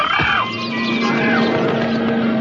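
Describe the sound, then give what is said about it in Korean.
Birds squawking and seals barking in a chaotic attack during a wedding ceremony. Dense, overlapping cries and swooping calls rise over a steady low tone. “왕자와 마녀의 결혼 성혼문이 난독되는 순간 마녀를 향해서 새들과 물개의 공격이 시작됩니다.”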